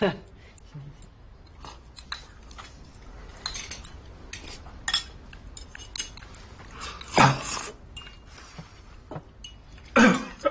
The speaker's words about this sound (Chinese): 爹这咳嗽呢，你别跟爹说话。